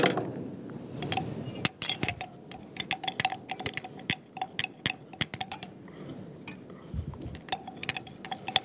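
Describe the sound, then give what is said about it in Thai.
A spoon stirs fine salt gently into a mixture in a bowl, making many irregular light clinks and scrapes against the bowl in an uneven, continuous rhythm. “ก็คนเบาๆนะคะคนเบาๆ”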